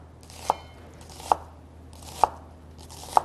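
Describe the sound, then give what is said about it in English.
Four sharp, evenly spaced chops of a knife cutting through food ring out alone over a faint steady background hiss. “Cut through the middle one more time. And this is a great way to chop them. Just much faster.”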